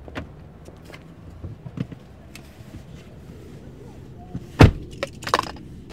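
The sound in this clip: Car sounds: scattered clicks and small knocks, then a heavy door thud followed by a few more clunks and rattles over low vehicle noise.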